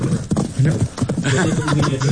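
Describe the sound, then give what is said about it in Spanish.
Horse sounds with hooves clip-clopping in short, irregular knocks, mixed with brief tonal snorting or whinny-like bursts over a busy background. “Ay, ¿quién es esa bestia? Suenan los caballos. Ay, qué caballo.”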